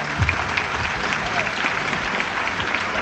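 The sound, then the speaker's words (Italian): Audience applause at an event honouring a group member: steady, dense clapping from a crowd, moderately loud and even throughout the few seconds, with no voices standing out. “Bravo, esatto. Un applauso”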